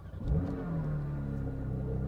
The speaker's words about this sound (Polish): Uruchamiamy silnik.